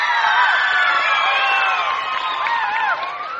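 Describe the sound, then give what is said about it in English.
Audience applause and cheering at the Grand Ole Opry welcoming a guest onstage, a dense, loud wash of clapping with shrill whistles and whoops on top, easing slightly near the end. “let's bring him out here with a real old-fashioned Grand Ole Opry welcome. Bill Anderson, let's give him a hand.”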